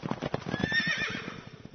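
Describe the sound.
A white, strong horse neighs with a short whinnying cry over a patter of hoof clatter, the rhythmic beats running throughout the brief clip.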